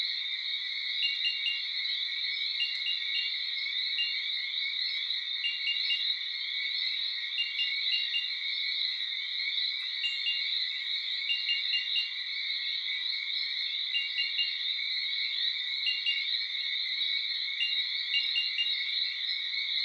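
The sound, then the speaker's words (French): A Paragryllus martini cricket sings at night high in the forest canopy, giving a continuous high-pitched trill broken into regularly repeating pulse groups, steady and unaccompanied for about twenty seconds. “qui dès la nuit tombée commence une migration sonore de sous l'écorce d'un tronc où il se réfugie la journée pour monter dans les hautes branches de la canopée chanter toute la nuit.”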